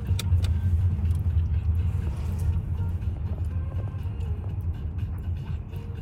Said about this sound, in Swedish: Ah, han vände om eller? Mm, det där Volvo. Svarta.